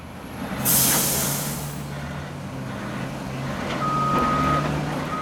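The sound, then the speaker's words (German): Garbage trucks roll through the entrance gate of a waste transfer station in Porto Alegre, southern Brazil: a loud air-brake hiss bursts early over a continuous engine drone, and a steady high reversing beep sounds toward the end. “Wir befinden uns auf einer Umladestation in der Stadt Porto Alegre, im Süden Brasiliens. Permanent fahren LKWs durch das Eingangstor, um den Müll von mehr als 1,3 Millionen Menschen abzuladen.”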